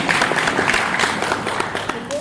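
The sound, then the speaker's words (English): Applause from a workshop audience: many overlapping claps that form a lively, fairly loud wash, with some voices mixed in. “Thank you very much. Clap for yourself.”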